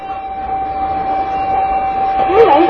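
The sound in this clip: A railway crossing warning signal sounds at Wudaokou in Beijing. A steady, high electronic tone holds over a continuous rumbling background.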